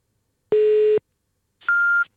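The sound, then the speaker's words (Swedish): Old-fashioned telephone beeps on an early-morning call that goes unanswered: two steady electronic tones, the first low and buzzy, the second higher and purer. Each lasts under half a second, a short gap separates them, and no voices are heard. “Gud, det lät gammeldags, det där pipet.”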